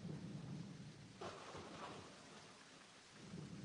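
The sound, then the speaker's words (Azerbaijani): Steady rain hisses throughout, with deep rolling thunder rumbling beneath it at the start and again near the end, and a brief brighter burst of rain noise in the middle; no voices are heard. “Bu tapmacanın cavabı yağışdır. Bəli, Tanrı rəhməti olan yağış.”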